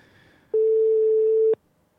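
A telephone line tone sounds while a call is being placed: one steady, mid-pitched electronic beep lasting about a second, clear and alone over faint background.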